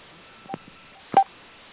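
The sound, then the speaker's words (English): Telephone dialing tones sound during a conference call dial-out: two short, clean beeps, a softer one and then a louder one, over a quiet line. “Okay, let me do my dial-outs.”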